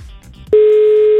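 Steady telephone tone on an outgoing call that goes unanswered, one unbroken pitched tone starting abruptly partway through and holding loud and level to the end, after a brief stretch of low murmur.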